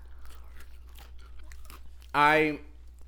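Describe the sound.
One loud, crunchy bite of a tangy, sweet snack comes as a brief burst after a quiet stretch.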